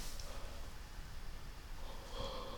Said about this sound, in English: I'm so sorry, I yawned, excuse me.